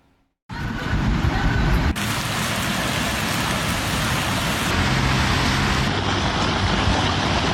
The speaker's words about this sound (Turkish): Trabzon, Rize ve Nevşehir'de yoğun yağış hayatı durma noktasına getirdi.